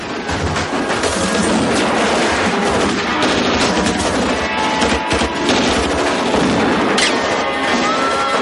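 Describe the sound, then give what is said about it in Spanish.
Gunfire from thugs shooting out of a casino at people sheltering behind a Volvo, in a 1997 Spanish black comedy film: loud, rapid bursts and sharp bangs packed into a dense, continuous mix. “Los matones disparan desde el casino. Ángela, los tres amigos y Rosana se protegen tras el Volvo.”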